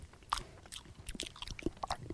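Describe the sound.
Chewing a bite of freshly cooked, firm meat: quiet, irregular crunchy bites and wet mouth sounds in a loose rhythm, with no talk.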